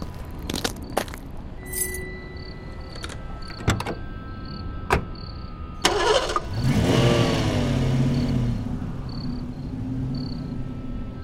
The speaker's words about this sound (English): Jimmy's Ford Econoline van was just a few spots away from Big Bill's. It was a hot, steamy night, so they both rolled down their windows.